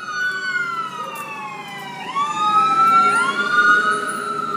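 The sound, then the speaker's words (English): A fire truck siren wails loudly and steadily on its own, its tone sweeping up sharply twice in quick succession. “At the moment, that was a fire truck.”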